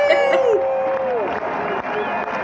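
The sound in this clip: A few voices cheering and whooping in celebration, bright rising-and-falling calls at the start, then softer background chatter.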